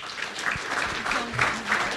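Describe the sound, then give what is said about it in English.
An audience applauds a guest speaker as she is introduced at a blockchain investment talk. The clapping is moderate and steady, with gentle swells throughout. “Why don't you give her a round of applause?”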